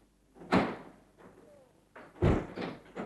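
A door being opened, heard as two faint, separate thudding knocks of wood and latch with quiet gaps between them.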